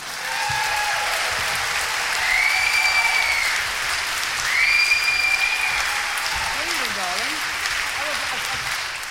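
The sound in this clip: Audience applause welcomes a music hall singer onto the stage of Wilton's Theatre: dense, sustained clapping from a crowd, steady in level, with a couple of high, bright whistles rising above it.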